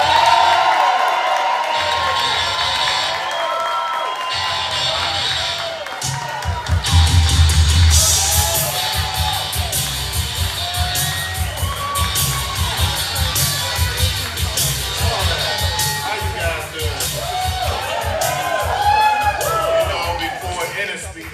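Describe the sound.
Loud crowd cheering at a political rally in Rome, Georgia, for a U.S. Senate candidate: sustained roaring, whoops and shouts from many voices that swell after a few seconds and stay strong to the end.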